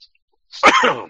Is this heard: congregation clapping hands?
no

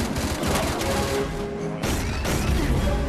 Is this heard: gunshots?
yes

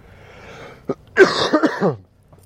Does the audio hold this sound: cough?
yes

